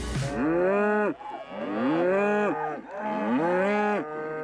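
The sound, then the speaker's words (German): Cattle moo on pasture around a farm in the Sauerland, a herd kept outdoors all year, giving three long, loud, rich lowing calls one after another with brief gaps between them and no talking. “Die Rinder leben das ganze Jahr über draußen auf Weiden rund um den Hof.”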